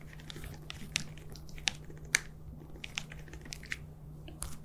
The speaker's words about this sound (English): Okay, I typed it in.